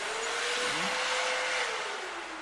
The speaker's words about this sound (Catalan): Ara passa les mans per aquest assecador.